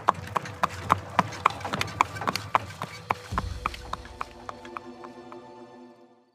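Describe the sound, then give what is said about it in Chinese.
A horse-drawn carriage pulls away by moonlight, with hooves clip-clopping in a steady, brisk rhythm that starts clear and gradually grows fainter until it fades out. “两人拉开后门，坐上一辆毫不起眼的马车，消失在月色里。”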